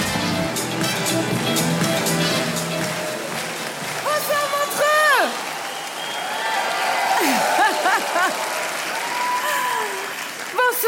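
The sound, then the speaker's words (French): Audience applause and cheering for a comedian at a comedy festival show: dense, steady clapping that fills the whole stretch, with a few high whoops rising above it. “Préparez-vous maintenant à accueillir notre prochain artiste et faites du bruit, où que vous soyez, pour Laurie Perret.”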